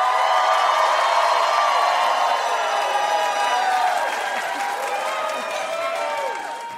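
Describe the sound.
An audience applauds and cheers to welcome guest Nick Kroll. The loud, continuous clapping and whoops run alongside tonal music and ease slightly toward the end.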